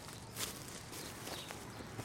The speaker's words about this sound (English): Maybe if I just take a bit of a running start.